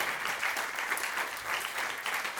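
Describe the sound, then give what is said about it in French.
Congregation applause during a morning church service: dense, steady clapping from many hands that runs unbroken at an even, moderate loudness for the whole stretch. “Est-ce que je peux vous demander ce matin d'applaudir notre Dieu parce que vous savez d'où viendra votre secours?”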